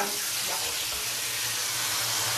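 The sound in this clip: Water running from a tap into a sink while a dog is washed, a steady, even hiss of flowing water that continues throughout without a break.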